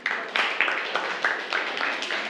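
Scattered applause from a classroom of students, rewarding a correct answer, with a few sharp bursts of clapping that rise and settle over a steady patter of hands.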